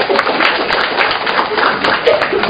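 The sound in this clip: An audience at a religious gathering claps in applause to welcome a man forward, a dense, steady patter of many hands that holds at an even loudness for the whole stretch.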